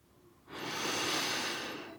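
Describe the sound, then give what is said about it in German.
A long, deep inhale as someone breathes in the scent of books, paper and glue, a breathy hiss that swells after a quiet start and holds for about a second and a half, alone. “Ich atme sie in vollen Zügen ein. Den Papiergeruch. Den Klebstoffgeruch.”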